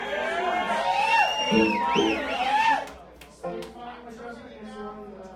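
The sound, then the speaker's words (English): Audience cheering and whooping for a bass player at a live music show, with loud, sustained crowd noise and several rising-and-falling whoops, easing off midway before a second, quieter burst of cheers. “Dude, they cheered for you.”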